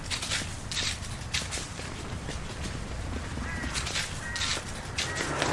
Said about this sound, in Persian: رامین میدوه. مردا میدوئن دنبالش.